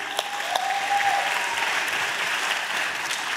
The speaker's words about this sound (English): would you please put your hands together and please help me welcome on stage my friends Van and Kristy